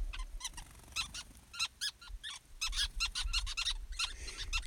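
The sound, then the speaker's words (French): Birds building a large nest in an acacia in Namibia give many short, high, repeated chirps in quick irregular bursts, fairly faint and with no voices. “Vous les entendez Ils sont superbes. D'ailleurs, dans notre campement de House Vista Camp, euh, ils sont en train de construire ce nid et nous campons juste en dessous.”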